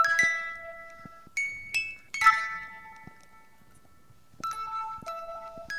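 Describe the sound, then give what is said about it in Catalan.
A simple hand-cranked music box plinks out a sparse tune in a studio: a few bright, bell-like notes ring out separately and decay slowly, with short pauses between them, all fairly faint. “Era una capsa amb un mecanisme que mitjançant una maneta feia sonar unes notes musicals. Vaja, una cançó. Avui aquí a l'estudi n'hem portat una senzilla. Voleu escoltar com sona?”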